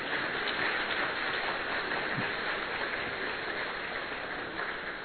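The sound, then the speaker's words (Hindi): An audience at a yajna gathering claps loudly. Many hands make a sustained, rain-like patter that stays steady and even for about five seconds. “यज्ञ में आज आपका मौन खत्म हो रहा है तो जोर से ताली बजा सकते हैं।”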